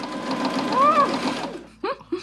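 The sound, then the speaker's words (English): A sewing machine stitches a pocket, running in a steady mechanical whir for about a second and a half before stopping; a brief voice follows. “let's go sewing.”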